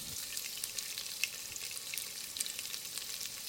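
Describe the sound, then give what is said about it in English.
Onion fries in a little oil in a pot with a steady, quiet sizzle. Faint scattered crackles and pops run through it, and no voices are heard. “put it into a pot with a little bit of oil. They can start coloring it or caramelizing the onion.”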